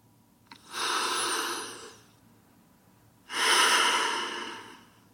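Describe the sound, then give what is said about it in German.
Deep, deliberate breaths during a calm breathing exercise: two long, airy breath sounds with a pause between them, the second fuller and slowly fading. “Wenn du soweit bist, dann nimmst du einfach 3 tiefe und bewusste Atemzüge.”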